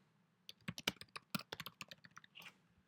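Quick, light clicking of keys as a message is typed on a computer keyboard, in an uneven burst of many keystrokes after a short quiet start, with no voices.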